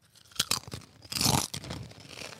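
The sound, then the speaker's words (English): Doritos crisps being crunched and chewed: soft, irregular crackly crunches with a louder, longer burst in the middle, faint and without talk. “I'm going to have some chips now.”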